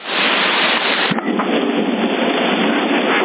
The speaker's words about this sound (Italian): Si sente? Questo era un tuono. E infatti quando comincio a sentire tuoni qua stacco.